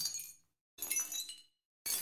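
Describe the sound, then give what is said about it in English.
Shattering glass crash sound effects with the sharp attack cut off, three separate bursts of tinkling, glittery debris that fade in softly, quiet with silent gaps between them. “here's our crash sounds again, but I just took the front off them, the attack of the sound, as it's called. Took the loud bit off the top,”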